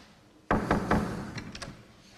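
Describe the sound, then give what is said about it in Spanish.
Knuckles knock on the door of a multipurpose room in a facility housing a hairdresser and podiatry service: three firm raps in quick succession, then a few lighter taps after a short pause. “¿Quieres tocar la puerta, ¿no? Toco puertas.”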